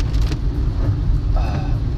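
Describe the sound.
Car driving along First Avenue, a city street being resurfaced: a steady, loud low rumble of engine and tire noise that continues without a break.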